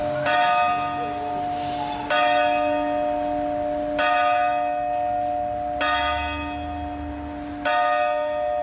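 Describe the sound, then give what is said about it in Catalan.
A bell on the civil bell tower of Sant Feliu de Codines strikes the hours with five loud, evenly spaced clangs about two seconds apart. Each strike rings on with a sustained metallic hum between blows, and no voices are heard. “Així és com sonen les hores de Sant Feliu. La singularitat de tenir dos campanars i que un d'ells, el civil, sigui el que marca tots els quarts i totes les hores del poble”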